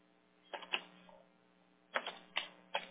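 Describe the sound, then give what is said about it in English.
Soft, quiet key clicks as a password is typed on a computer keyboard, coming in two short, quick clusters separated by a brief pause. “I have to type it in twice. Okay, so you're all set and squared away there. Oh, it has to be lowercase. I keep forgetting.”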